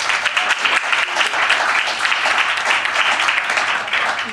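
Audience applause welcoming a guest, the director of an English opera revival of The Barber of Seville: loud, dense, continuous clapping throughout.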